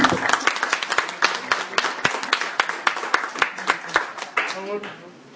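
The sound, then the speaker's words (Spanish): Applause from an audience at a comic convention talk, a dense, steady run of sharp hand claps that fades out near the end, with a little voice activity underneath. “Señor, aplausos.”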